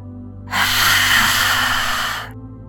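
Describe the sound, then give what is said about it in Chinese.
A deep inhale during a yoga lion's-breath exercise: one long, loud, airy hiss of breath lasting nearly two seconds, starting sharply and fading out, over a low steady hum. “第十一次深深的吸气，不断训练我们的力量。”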